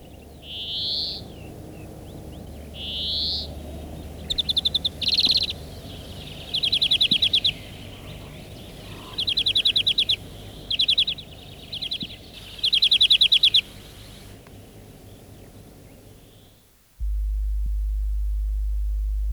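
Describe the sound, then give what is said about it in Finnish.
Greenfinch song at the turn of winter and spring: two short wheezy notes, then several bursts of rapid, high, canary-like trilling over a faint background. A steady low hum begins after the song ends. “Talven ja kevään taitteessa voit kuulla viherpeippomaista ryyintää ja kanarialintumaista lyllittelyä.”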